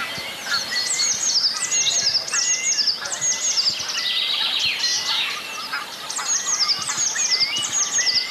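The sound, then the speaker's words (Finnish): A Eurasian blue tit sings repeated bright, high, thin trilling phrases on a spring morning, fairly loud over a faint outdoor hiss. “Tässä on sinitiäinen.”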